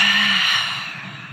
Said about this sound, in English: As deep as you can through the nose, open mouth, exhale it out.